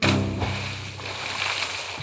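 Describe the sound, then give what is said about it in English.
An axe lands with a splash in a swift, deep river. It begins loudest, then settles into roughly two seconds of steady rushing, sloshing water noise. “the axe loosened from the wood, went flying through the air, and landed in the swift, deep river with a splash.”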